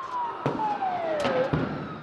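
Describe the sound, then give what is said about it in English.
An ambulance siren wails as the vehicle drives onto a square through tear gas during street clashes between police and protesters in Athens; its steady tone slides downward in pitch while a few sharp bangs cut through. “An ambulance is just driving onto Syntagma Square through clouds of tear gas to try and pick up a couple of people who've been wounded in these clashes.”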